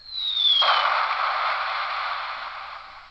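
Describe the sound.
A synthetic explosion effect from a battery-powered sound machine: a short high whistle sliding downward, then a broad rushing blast with crackle that fades slowly, heard alone without talk.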